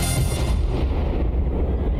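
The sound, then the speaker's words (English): A giant explosion closes a music track: a loud, deep booming roar that rumbles steadily for about two seconds. Its bright upper hiss fades after the first half second, leaving a dense low-end rumble. “Here in Whiskey Blanket, we believe all tracks should end in giant explosions.”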